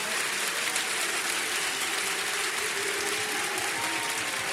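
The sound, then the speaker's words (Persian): An audience at a religious gathering claps together in a Heydari clap, a dense wash of many hands that holds steady and sustained throughout, with no single claps standing out. “یک کف حیدری بزن، کف حیدری گفتم، دست بیاد بالا”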